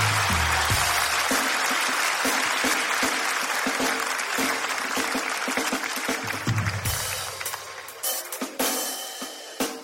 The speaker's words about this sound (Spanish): ¡Un aplauso para el amor, por favor! Un aplauso para el amor.